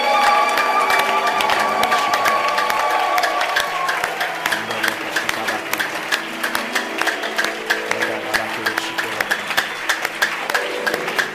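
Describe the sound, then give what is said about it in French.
A church audience cheers and applauds during a worship service. Loud massed clapping with raised voices fills the first few seconds, then thins into many scattered, separate claps that continue to the end. “Y a-t-il quelqu'un pour acclamer le Seigneur ce matin?”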